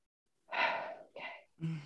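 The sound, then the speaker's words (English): Deep breathing, faint and close: a long airy inhale, a shorter second breath, then a brief voiced sigh, with silence before the first breath. “I do take a lot of deep breaths throughout the day.”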